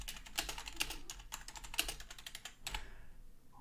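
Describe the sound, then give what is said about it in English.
Typing on a computer keyboard: a quick, quiet run of many clicking keystrokes in irregular bursts that stop shortly before the end. “Probably hear the typing, huh?”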